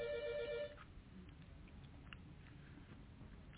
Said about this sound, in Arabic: تلفون بيضرب.